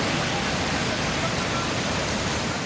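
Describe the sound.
A steady, loud rushing roar from a natural waterfall in Khyber Pakhtunkhwa near Dargai bazaar, a constant wash of falling water with no breaks or pauses.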